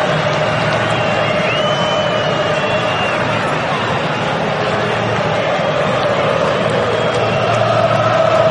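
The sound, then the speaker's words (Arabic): Argentine football fans cheering at a match in New Jersey: a loud, dense crowd roar that holds steady for the whole stretch with no clear breaks. “أجواء كبيرة في نيو جيرسي، هذا الجمهور الأرجنتيني في انتظار أداء هجومي من الألب السلاستي.”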